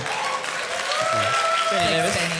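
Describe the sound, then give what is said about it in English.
An audience bursts into steady applause, a dense continuous patter of clapping that stays fairly even throughout, with voices talking underneath it. “No other room would that get a round of applause.”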